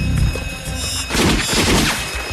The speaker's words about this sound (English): A vamp is vaporized in the crossfire, and they retreat.